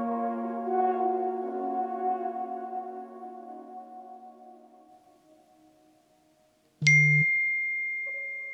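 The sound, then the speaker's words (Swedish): A messaging app notification ding sounds suddenly as a bright chime with a long ringing tail. A softer second tone follows, after an earlier tonal sound has faded to quiet. “Meddelande i WhatsApp-tråd.”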